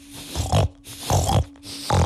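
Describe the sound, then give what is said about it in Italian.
Pigs grunting and oinking in three separate snorting bursts with short gaps between them, loud and rough-edged with low throaty grunts, and no talk over them. “Insomma, Circe li aveva trasformati in tanti... Maiali!”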